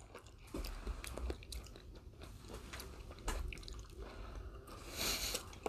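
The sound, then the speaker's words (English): Crunchy biting and chewing of a snack, with many irregular crisp crunches and wet squishing mouth sounds, fairly quiet and heard alone without talk. “just taking a decent bite.”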